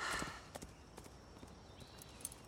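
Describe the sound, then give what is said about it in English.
Horse hooves clip-clop as a rider rides off: a few sharp, uneven hoof strikes over a steady low hiss, fairly faint throughout. “Amberlee rides off”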